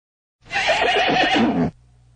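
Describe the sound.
A horse pulling a cart gives a single loud, quavering whinny of just over a second, heard alone.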